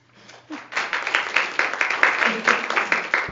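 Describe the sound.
Audience applause welcoming presenters at a nursing education session on tobacco treatment, starting faint and quickly swelling into dense, steady clapping that carries on to the end.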